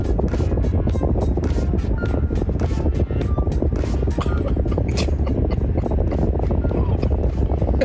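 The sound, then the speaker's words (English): A herd of 40 cows tramples through a residential neighborhood, making a loud, dense, continuous clatter and thudding of many hooves that holds steady for the whole stretch. “And what you're about to hear is not from the wind, it's the sound of the herd trampling by.”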